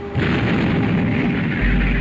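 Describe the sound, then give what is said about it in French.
Naval artillery fire from Royal Navy ships in a sea battle makes a loud, continuous booming roar. The blasts merge into one heavy rumble rather than separate shots. “Comme ça. La Royal Navy riposte à son tour, donc cela tourne à l'affrontement, à la bataille.”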